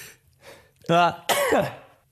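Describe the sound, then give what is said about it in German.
A single sneeze in two parts: a voiced, rising intake builds into a loud, breathy burst that trails away, with a faint throat sound just before it and no talk around it. “Oh, warte mal, ich muss kurz niesen. Ja, schon wieder.”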